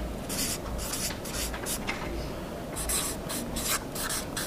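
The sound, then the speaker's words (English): A marker squeaks and rubs across a marker board as a diagram is drawn, in many short, bright strokes separated by brief pauses, with no talking. “I've got a little marker board right here. I want to draw a little diagram.”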